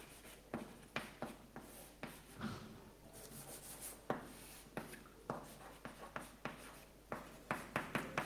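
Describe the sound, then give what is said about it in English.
Scratchy strokes of a hand drawing a mathematical diagram: many short, quiet scrapes and taps in an irregular rhythm, each stroke a brief rasp followed by small pauses. “And let's draw this as a diagram.”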